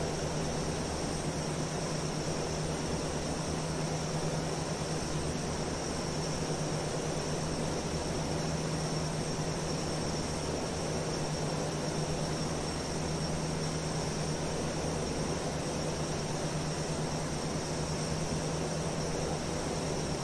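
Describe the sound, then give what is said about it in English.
Steady engine drone of a Lockheed C-130 in flight in a flight simulator video game. A dense, unchanging roar with airy hiss and a low hum runs throughout, with no voices. “It is a Lockheed, what is it, a Lockheed C-130?”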